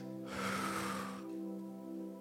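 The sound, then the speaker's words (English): One deep breath: a broad, airy rush lasting about a second, over a steady low hum that continues after the breath ends. “I don't remember a week where I had to take so many deep breaths. I told my wife, I said, this week I found myself doing this a lot.”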